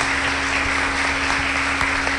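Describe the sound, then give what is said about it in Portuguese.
Applause for a religious procession honoring Our Lady: a steady, moderate wash of clapping over a constant low hum. “Vamos aplaudir a procissão.”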